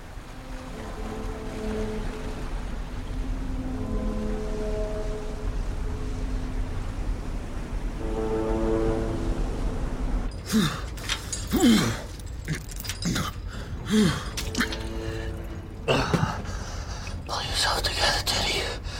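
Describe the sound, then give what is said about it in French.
Retching and vomiting open the film Shutter Island, set aboard a boat at sea. Low, droning horn-like tones sit over washing sea noise. In the second half, harsh, irregular bursts of heaving and gagging take over. “Ça commence par un vomissement, ce film. Alors, on va l'entendre, si vous le voulez bien.”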